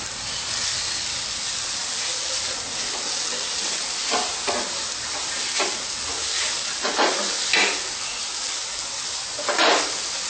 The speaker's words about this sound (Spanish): Mezclamos todo.